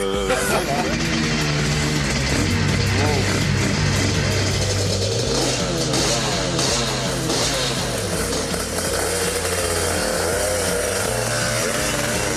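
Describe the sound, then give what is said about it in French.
A legendary motorcycle's engine roars loud and continuous as it rides onto a race circuit, its drone wavering in pitch throughout. “Alors voilà, j'entre sur le circuit de Murcielévy, au guidon d'une moto qui est mythique pour moi.”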